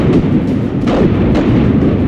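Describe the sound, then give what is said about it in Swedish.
Cannon fire bombarding Bohus fortress in 1678, with heavy guns firing from the Fontingberget heights. A loud, dense low rumble runs throughout, punctuated by a few heavier booming blasts. “Cirka 20 000 kanonkulor, granater och stinkpotter avlossas mot fästningen. Den tyngsta elden kommer uppifrån Fontingberget där kanonerna har god skottvinkel.”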